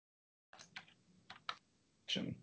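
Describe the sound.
Faint computer mouse clicks while setting up a new connection in Microsoft Flow: a few soft, separate clicks followed by a slightly longer rustle of input noise.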